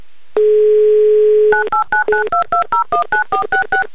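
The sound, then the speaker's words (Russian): A telephone dials a call to a listener in Perm: a steady dial tone for about a second, then a rapid, even series of short touch-tone beeps. “Давайте звонить в Пермь и звонить Сергею. Делаем это прямо сейчас.”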